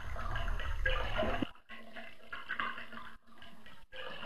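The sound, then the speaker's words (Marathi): A thin stream of water trickles from a tap into a water tank, a fairly loud, steady splashing at first, then a softer patter broken by brief gaps. “आतल्या पाण्याचा गारवा, नळातून पाण्याची क्षीण धार पडत असल्याचा भुळभुळ आवाज.”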